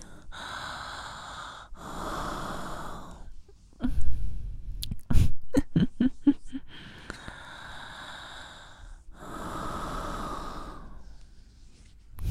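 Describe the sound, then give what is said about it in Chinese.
A woman breathes and exhales close into a microphone: several long, airy, hissing breaths, with a cluster of short, sharp, sniffing or gasping bursts in the middle. “听着姐姐如此近距离的呼吸哈气声，已经让你舒爽到打冷战”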